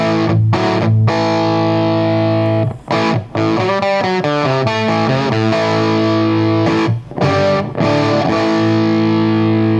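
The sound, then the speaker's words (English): Crunchy, distorted electric guitar tone with the crunch turned up: loud, sustained, buzzing chords ring steadily, broken by a few brief gaps between strums. “Bring up the crunch a little more.”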